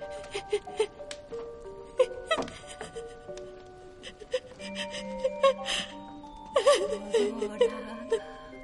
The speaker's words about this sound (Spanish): Llora.